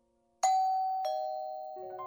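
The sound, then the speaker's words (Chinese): A doorbell chimes ding-dong at the front door of a house: a few clear, bell-like tones stepping downward in pitch, each ringing on and fading slowly, moderately loud and alone. “我按了你家门铃，不一会儿，门开了”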